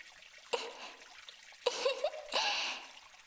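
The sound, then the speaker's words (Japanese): Water is poured to rinse someone's back in a private indoor bath. Three short, faint splashing pours come one after another, each with a soft trickle trailing off. “お客様、お背中をそのお流しいたしますね。”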